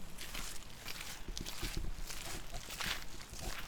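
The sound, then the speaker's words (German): Faint footsteps as a walk through Niederschöneweide begins, soft irregular steps blended into a steady wash of outdoor noise. “Dann werden wir von diesem Standpunkt aus jetzt einfach mal unseren Spaziergang durch Niederschöneweide beginnen”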